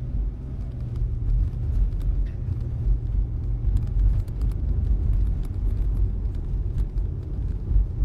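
Steady low rumble of a car driving on a road: a continuous engine and tyre drone at even loudness throughout, with no talk.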